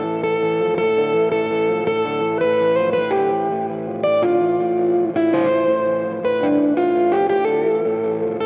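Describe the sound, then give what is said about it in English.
A sleek black Mexican Stratocaster electric guitar plays a flowing melodic passage of chords and single notes, loud and sustained throughout, coloured by effects such as chorus and echo. “That's the sound of a sleek black Mexican Stratocaster”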